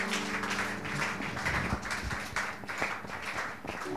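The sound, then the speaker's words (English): A church audience claps at a New Year's Eve watch night service. The clapping is a dense, continuous patter over low sustained tones that fade partway through. “Clap for yourselves being here.”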